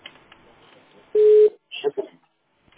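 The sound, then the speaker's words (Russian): Telephone tone on a call: a single steady, mid-pitched beep lasting about a third of a second, with faint talk before it and a few short bursts just after. “Да, я звоню.”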